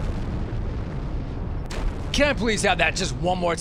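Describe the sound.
An explosion sound effect: a sustained, noisy low roar for about a second and a half that cuts off before a person starts talking.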